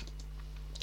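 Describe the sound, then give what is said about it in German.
Typing on a computer keyboard: a few soft, scattered key clicks over a steady low hum, ending with one sharper, louder click. “Also es könnte sein, dass ich manchmal ein bisschen tippe und ein bisschen aufhöre zu reden, weil ich ein bisschen auch gucken muss soll.”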